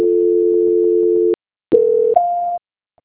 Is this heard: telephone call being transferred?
yes

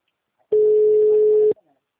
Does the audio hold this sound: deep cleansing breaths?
no

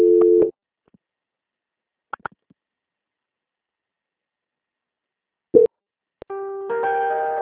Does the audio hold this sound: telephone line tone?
yes

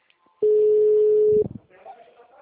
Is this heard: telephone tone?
yes

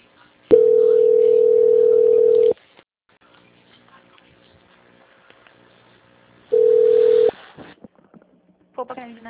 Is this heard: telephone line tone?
yes

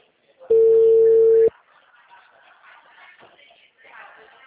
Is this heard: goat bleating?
no

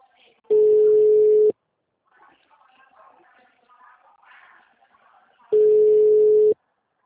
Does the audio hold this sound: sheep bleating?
no

